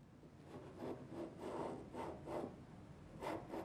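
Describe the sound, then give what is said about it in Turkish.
Rasping scrapes of a scraper pulling pink paint off a surface after paint remover was applied, in a series of repeated strokes, steady and moderately loud, with no talk. “Şimdi yapacağım şey bu korkunç pembe boyanın üzerine bir boya çıkarıcı sürmek. Sihrini göstermesi için birkaç dakika beklemek ve sonra da o boyayı sıyırıp altında ne olduğunu görmek.”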